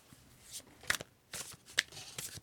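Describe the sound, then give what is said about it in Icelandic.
Playing cards being shuffled at a table, with faint quick papery riffles and snaps in a few short bursts. “Og ég byrja bara hérna aðeins að stokka spilin.”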